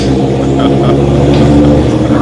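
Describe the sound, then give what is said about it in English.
A bus passing at a bus station gives a loud, steady low engine rumble with a rough, throbbing texture that stays level throughout. “hold on, is a 712 bus gone yet? I can't hear you.”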